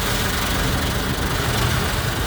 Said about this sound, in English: The loud and rhythmic sounds of car wash, soapy suds spraying and cascading down the car windshield, are a common refrain across Central Florida this time of year.